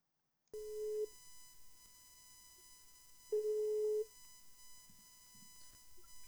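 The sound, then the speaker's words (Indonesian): A telephone ringback tone sounding while a call is placed, with two steady, mid-pitched buzzing rings separated by a long quiet gap. “Oke, kita langsung hubungi saja Kasiska.”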